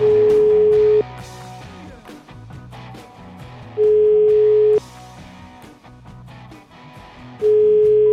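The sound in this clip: Telephone ringing tone while a call is placed: three steady, pure one-second tone pulses, spaced about four seconds apart, over quiet background music.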